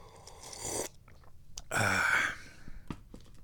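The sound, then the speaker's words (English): Someone takes soft, slurping sips of tea, quiet breathy sounds rising and falling over a faint background, with no speech. “So I'm drinking tea. It's so yummy.”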